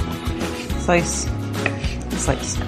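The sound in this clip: A knife slicing food while enchilada ingredients are prepared, with a few cutting strokes and light kitchen clatter.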